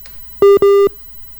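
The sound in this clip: Telephone busy tone after a WhatsApp call drops: two steady mid-pitched beeps in quick succession, the second longer than the first, with no talk over them.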